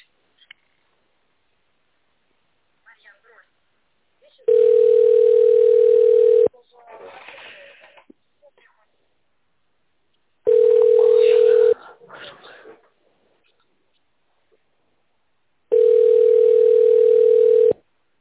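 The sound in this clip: Steady telephone line tones while a business call is transferred to another person: three long, level beeps, each lasting about one to two seconds, separated by gaps that hold faint scattered sounds.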